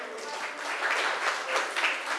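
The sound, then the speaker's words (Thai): Students in a class applaud themselves with a short round of steady, fairly soft clapping that swells slightly in the middle and keeps an even, crackling texture throughout. “ถูกต้องค่ะได้ไป10คะแนนค่ะปรบมือให้ตัวเองหน่อยค่ะ”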